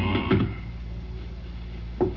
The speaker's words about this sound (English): Well, it's cold outside. I'll just close this door.